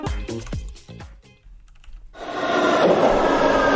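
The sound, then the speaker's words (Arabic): Metro train arrival effect: after a short run of light clicks, a loud rushing roar swells in and holds steady as the train pulls in. “يلا المترو وصل وبينقلنا بمحطته الأولى”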